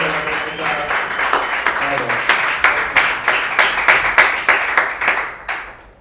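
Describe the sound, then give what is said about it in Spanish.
Audience applause welcoming a comedian making her debut: many claps in a dense, steady burst that stays loud, then fades away at the very end. “un aplauso acá para Jessica Sala.”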